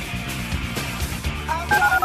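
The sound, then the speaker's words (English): Telephone keypad dialing tones sound as a few short, clear beeps near the end, layered over a dense, continuous background of other sound. “To call into the HRNP listener line, dial 713-780-ESPN. Dial the phone.”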